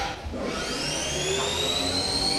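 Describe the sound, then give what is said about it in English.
A manufacturing machine in a high school technology shop starts its cycle and changes to its first tool: a steady mechanical hum with high whining tones that climb and hold, continuous throughout. “Close my doors up, cycle start. It'll initiate the start to my machine. There it goes, it's changing to my first tool, and it'll begin running.”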